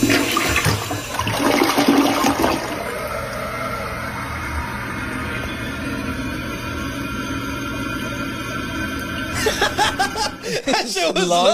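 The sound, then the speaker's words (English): A toilet flushes in one long, rushing swirl of water that runs steadily for several seconds, then ends in bubbling gurgles as the bowl refills. Brief laughter sounds near the start. “Is that normal? That's an actual toilet.”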